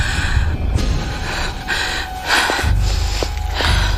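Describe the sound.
Ragged, labored breathing from an injured person: a few gasping, snorting breaths over a low, steady rumble, with no talking.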